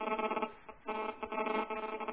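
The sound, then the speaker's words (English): A cell phone rings during a meeting with a continuous, bright, tonal ringtone melody. It is interrupted by brief gaps and sounds thin and narrow, with no voices over it. “whose cell phone is it? Because it's someone's cell phone that's ringing.”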